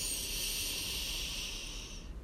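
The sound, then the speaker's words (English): A deep breath drawn in through the nose during a guided breathing exercise: one long, steady, airy hiss lasting about two seconds that fades at the end, with no talk. “let's take some deep breaths. So, close your mouth, breathe into your stomach and through your nose.”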